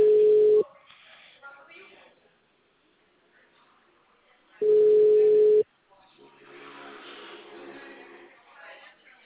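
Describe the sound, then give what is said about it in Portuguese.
Ringback tone while calling someone by phone: two loud, steady single-pitch beeps, each about a second long and roughly four seconds apart, with a voice talking between and after them. “Tá, então, deixa eu ligar ela aqui.”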